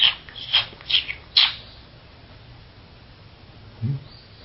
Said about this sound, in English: birds singing